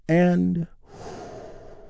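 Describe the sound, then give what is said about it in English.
A deep breath taken together during a guided relaxation exercise: a brief, voiced, sigh-like tone gives way to a long, soft, breathy rush of air. “We begin by taking a big, deep healing breath all together. Here we go.”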